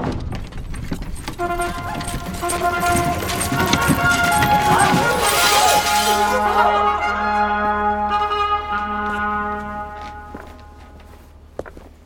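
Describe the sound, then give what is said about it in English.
A gangplank lowers from a sky ship in a loud, sustained wash of whooshing noise and droning tones, with rhythmic thuds like steps coming down. It eases off toward the end. “They're lowering a gangplank. Someone's coming down.”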